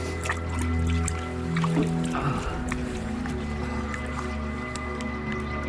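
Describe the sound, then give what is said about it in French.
Water flowing through a cave passage gives a steady trickling, dripping wash that stays even throughout, with a low droning hum running underneath. “Écoute! L'eau! C'est bizarre!”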